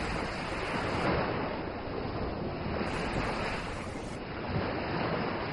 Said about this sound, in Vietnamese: Tiếng sóng cuồn cuộn, tiếng gió, thêm tiếng còi cảnh sát đòi mạng vang lên truyền vào tai mọi người.